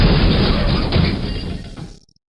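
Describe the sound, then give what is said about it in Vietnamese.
A large stone meditation-chamber door bursts apart as earth and rocks fly in every direction, giving a loud, dense crash that rumbles on and fades away within about two seconds. “cái cửa lớn của tỉnh thất bị vỡ ra, đất đá bạo liệt văng đi tứ phía.”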